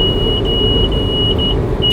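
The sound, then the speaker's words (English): A van's speed alarm, set for speeds over 75 miles an hour, sounds a steady high-pitched electronic tone with slight pulsing over continuous engine and road rumble, ending in a short burst of noise. “the van has a speed alarm. Yeah, we're not. No need to bleep out profanities, the van will do it for you.”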